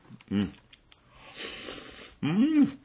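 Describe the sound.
Chewing of a bite of tender thin-sliced meat from a simmered dish with carrots: soft, moist crunching and squishing in the middle, framed by short voiced sounds before and after.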